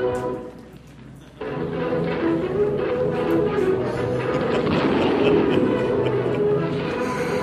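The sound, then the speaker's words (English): Gunfire from an old television western. After a brief quieter opening, a dense, loud barrage of shots and rumbling begins and continues steadily to the end. “Come on, shoot those guns.”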